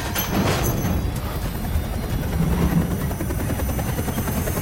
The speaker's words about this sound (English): The chopper takes off, lifting the car with him in it.